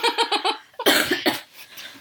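A person coughs in a fit: first a quick run of short, even bursts, then a louder, harsher cough that trails off into a few weaker ones, with no talking.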